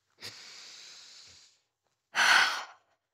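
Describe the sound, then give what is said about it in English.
A deep breath: a long, soft breath of air, then a brief pause and a shorter, stronger, louder breath, with nothing else audible. “Now I want you to close your eyes for a second and take a deep breath.”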